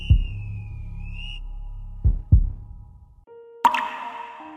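Four distinct water-drop plops fall at uneven intervals, each a short, hollow, resonant drip, against a thin sustained whistling tone and a low hum in the background.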